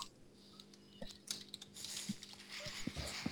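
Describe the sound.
Keyboard typing in short, scattered bursts: a few soft, faint key clicks spread unevenly across the moment, with no talk over them.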